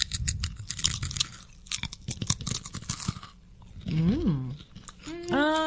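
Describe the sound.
Crunchy, cereal-sized puffed snacks flavored with smoked paprika are chewed with many crisp, rapid crunches, loud and close, for about three seconds, then brief vocal sounds follow.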